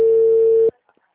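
Telephone busy tone after a dropped call: one sustained, steady mid-pitched tone lasting under a second, then cutting off abruptly into near silence.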